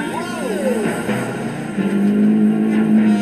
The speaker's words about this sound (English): So, can Mrs. May beat that in the Renault?